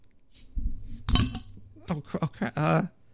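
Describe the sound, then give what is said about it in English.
A beer bottle is opened with a bottle opener: a short, bright hiss as the cap lets go, then a few light clinks, followed by people talking. “And to celebrate, we got a bad bottle opener.”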